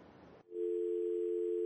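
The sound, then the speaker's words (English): A telephone dial tone sounds after a caller drops off the line. A brief burst of line hiss cuts out, then a steady, unbroken tone holds at one pitch. “Ah, I think we've lost the caller. Hello? I think the caller dropped.”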